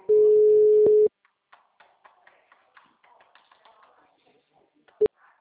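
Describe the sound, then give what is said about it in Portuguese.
A telephone disconnect tone after a dropped call: one loud, steady electronic tone lasting about a second, then a stretch of faint scattered clicks and taps, ending in a single short beep. “Caiu a ligação.”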